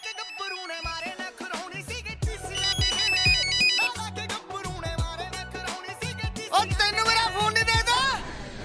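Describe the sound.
A mobile phone ringtone plays a bright, melodic electronic tune, loud and busy with quick high notes over a steady beat, continuing for the whole stretch without pause.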